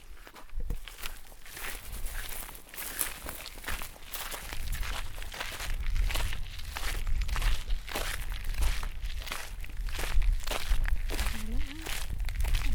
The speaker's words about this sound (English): We're just walking around the vineyard at the moment. There's rows and rows of grapevines.